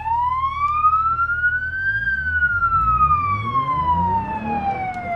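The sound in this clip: A sheriff vehicle's siren in a video game wails in one long sweep, climbing in pitch for about two seconds and then sliding slowly back down, loud over a low engine rumble.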